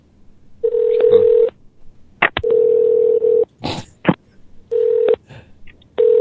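Telephone line tones from stuck phone lines that keep ringing, one going to a busy signal: several steady mid-pitched tone bursts separated by sharp clicks and short gaps.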